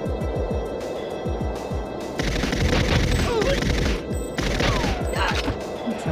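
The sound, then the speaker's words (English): Video game gunfire rattles in a snowy area: dense, rapid bursts of shots run without a break throughout and grow louder partway through. “Who's shooting at me?”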